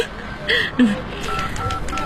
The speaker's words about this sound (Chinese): 啊，好，就用我的手机打好了。 俺有手机，摩托罗拉第一代的手机。